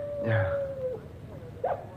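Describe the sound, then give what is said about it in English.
Dog howling outside, a long, drawn-out, faint tone that slowly sinks in pitch, followed by a shorter second cry at low level. “The dog again.”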